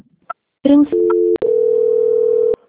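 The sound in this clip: Telephone tones play while a call is transferred to quality control. A brief blip and a few short tones come first, then a click and a longer steady tone held for about a second before it cuts off.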